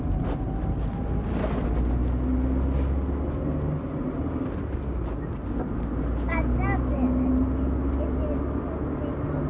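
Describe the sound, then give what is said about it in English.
An ambulance drives past without a siren, its low engine rumble and road noise steady throughout while people talk. “An ambulance is giving somebody to hospital. Yeah. Oh, it might be taking somebody to hospital.”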